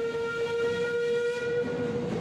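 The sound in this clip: London Underground train departing, giving off a steady, high tonal whine with layered overtones above a continuous low rumble, with no voices.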